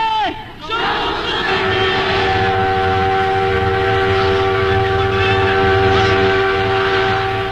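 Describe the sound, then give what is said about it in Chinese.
A freight train bound for Nanjing roars loudly and steadily, with a sustained horn tone, and a crowd of voices shouting over the din. “这趟货车是开南京的，工人弟兄们欢迎我们上车。”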